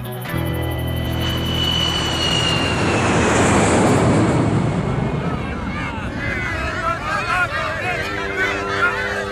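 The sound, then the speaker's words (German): An airplane landing at Berlin Tegel airport: a loud, continuous roar of engines with a high whine that stays strong throughout. “Vor wenigen Minuten ist Jens Markowitz wieder in Berlin gelandet. Am Flughafen Tegel wurde der Kanzler von zahlreichen Demonstranten erwartet”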